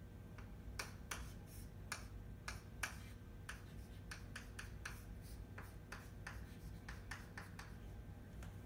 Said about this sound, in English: This is another component. I'm drawing guanosine.